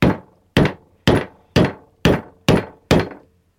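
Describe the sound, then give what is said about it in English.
A hammer drives a metal punch through leather laid over a lead block, cutting an oblong hole for a buckle pin. Seven sharp, evenly spaced blows land loudly, each ending in a quick decaying ring. “Can you push over that bit of lead? And this is presumably cutting out for the pin of the buckle.”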